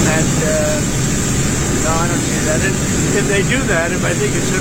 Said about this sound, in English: Now, the audio is pretty bad because they're right beside a jet engine.